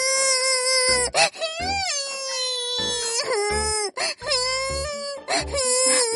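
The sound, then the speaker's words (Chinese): A little girl with a high fever cries at a hospital, afraid of an injection: high, wavering wails broken by many short sobbing gasps, loud and continuous. “小妹妹，别哭别哭”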